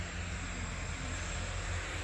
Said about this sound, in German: Takeoff eines Domestic Flights von Daravando. Bestimmt nach Male. In der Höhe, wo sich jetzt hier fast abheben könnte, sind wir jetzt.